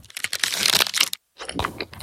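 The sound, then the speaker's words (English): Crisp crunching and crackling as someone bites into a mint Aero bar, a bubbly aerated chocolate, in two bursts of brittle crumbling separated by a brief silence. “This is an Aero.”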